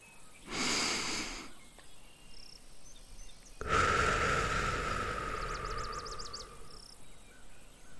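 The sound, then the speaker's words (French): Meditation breathing: a short, soft rush of air drawn in through the nose, a pause, then a longer, louder, breathy exhale out through the mouth that slowly fades. “Inspirez par le nez et expirez par la bouche. une deuxième fois.”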